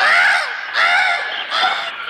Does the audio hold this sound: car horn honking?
no